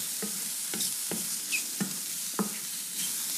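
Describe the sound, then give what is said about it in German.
Butter sizzles as it is stirred into a hot pan and browns: a steady frying hiss with regular scraping strokes about every half second. No voices. “Butter hinein. So, die Butter mal ein bisschen einrühren.”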